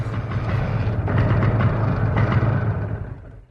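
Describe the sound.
A vehicle arriving and pulling up in front of a house: a steady rumbling engine with a low hum holds throughout, then fades away at the end as it comes to a stop.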